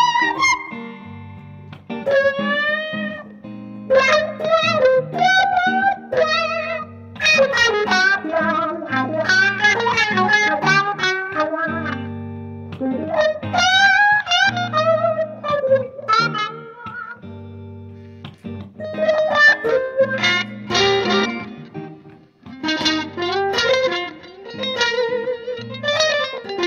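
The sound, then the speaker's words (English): An electric guitar with Klein pickups, played on the neck pickup through a wah pedal, picks out a lively lead line. Its notes are quacky and sweep in tone, phrases come in bursts with short pauses, and it plays alone. “It also has that kind of Clapton-y sort of vibe to it, this wah as well.”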